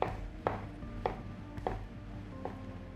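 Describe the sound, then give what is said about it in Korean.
A knife slices shiitake mushrooms into half-centimetre pieces on a cutting board while vegetables are prepared for a beef-stuffed tofu hot pot. A few crisp, evenly spaced knocks sound faintly over a low steady hum. “표고버섯은 0.5cm 크기로 썰어줍니다.”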